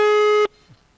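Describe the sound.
A telephone line tone sounds while a call is being placed: one steady, buzzy electronic tone holds for just under half a second and then cuts off abruptly, leaving near silence.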